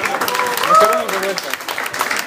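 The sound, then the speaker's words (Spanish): Audience applause for a departing guest at a live Marvel comics talk: a steady spatter of clapping under a speaking voice. “me gustaría pedirles en serio un fuerte aplauso para Spike por acompañarnos una vez más. Un fuerte aplauso para su debut y despedida de Mr. X.”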